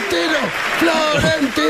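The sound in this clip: A crowd cheers and chants at the arrival of Florentino Pérez, loud voices in repeated falling shouts over a bed of applause.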